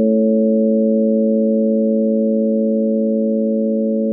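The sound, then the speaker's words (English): A steady electronic tone stands for the radiation dose of a mammogram. The single sustained pitch holds loud and unchanging, with no break, for about four seconds. “Okay, now here's what a mammogram sounds like.”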